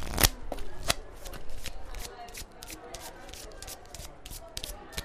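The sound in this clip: Playing cards being dealt in a library make a fast flurry of crisp flicks, riffles and light slaps, with voices talking underneath.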